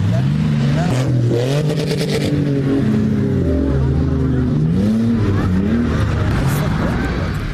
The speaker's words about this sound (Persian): موترهای شاسی بلند به سرعت تپه های ریگی کندهار را می پیمایند.